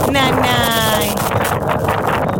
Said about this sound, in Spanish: Uy, que hay viento.